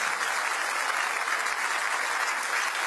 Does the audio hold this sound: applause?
yes